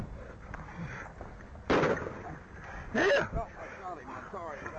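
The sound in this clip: Gunshots fired by a police officer at a man during a struggle over a taser: a few sharp, loud bursts that stand out above ongoing voices and background noise.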